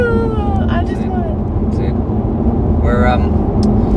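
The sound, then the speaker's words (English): Steady low road rumble from inside a car on a regular family drive, continuous and fairly loud beneath people talking throughout. “This recording is being recorded on our typical drive from Dad's place to Mum's place.”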